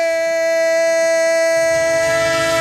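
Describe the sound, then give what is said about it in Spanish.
Train horn sound effect: a loud, sustained, steady multi-tone blast that holds without a break, with a rumbling noise joining underneath partway through. “¡El tren de Radio Estadio! El tren de la pura competición”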